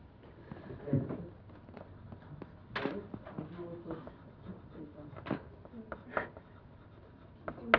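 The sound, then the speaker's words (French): A child writing their name by hand: many soft, scratchy pen or pencil strokes in an irregular rhythm, with small taps and rubs between them, fairly faint throughout. “Très bien, tu peux écrire ton nom.”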